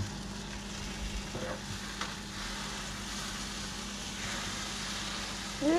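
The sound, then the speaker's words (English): Food sizzling and frying in a pan while burrito fillings are cooked, a steady crackling hiss with a low hum underneath and a few faint stirring clicks. “It's not my first time cooking because I know how to cook. I can cook some meal.”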